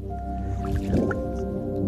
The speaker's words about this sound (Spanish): Lo último que me esperaba era estar con los pies en el agua en medio del desierto.